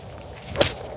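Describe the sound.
A golf club striking the ball on a course, heard as a single sharp swish and crack midway through, standing out against a quiet, steady outdoor background.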